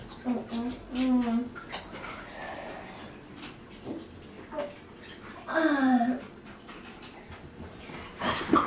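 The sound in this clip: Water splashes during a child's bath and hair wash, with a few bursts of sloshing under voices that talk over it throughout.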